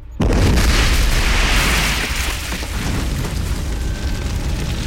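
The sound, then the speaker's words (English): Helicopter crashing onto a rubbish dump and catching fire: a sudden loud booming impact swells into a dense, roaring, crackling rumble that stays heavy and loud throughout. “the chopper clips the edge of the roof and plunges down on top of a rubbish dump, setting fire to everything in its way, bumping and rolling along the ground”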